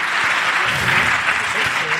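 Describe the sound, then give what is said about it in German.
Dense, steady applause from a live audience welcoming a winner onto the stage at a live New Year's Eve preparation show, holding at an even, loud level throughout without pause. “Und du wirst natürlich, wenn du hier hochkommst, auch einen wunderbaren Applaus bekommen für unseren Gewinner.”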